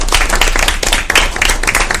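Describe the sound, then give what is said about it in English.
Audience applause for staff at a traffic safety event: loud, close clapping with distinct individual claps standing out from a dense crowd texture, continuing evenly for a couple of seconds. “So a round of applause for them.”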